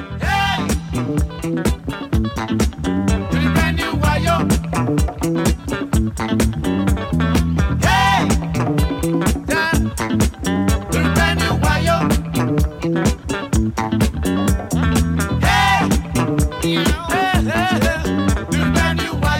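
Late-1970s to early-1980s Nigerian disco boogie song: a dense, driving dance groove with a steady beat, punchy bass and bright layered instruments, playing loud and continuous throughout.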